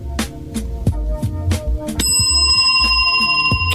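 A bicycle-style bell rings in rapid, rhythmic dings, producing many bright metallic strikes in quick succession that grow denser and more sustained in the second half.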